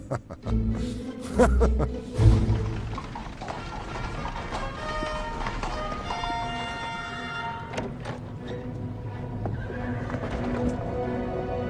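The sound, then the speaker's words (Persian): Horses drawing a royal carriage whinny and neigh over steady clip-clopping hooves. A few heavy thumps come early, then drawn-out whinnies ring over the ongoing trot. “ملکه آگاتا از کالسک سواری سلطنتیشون لذت بردن؟”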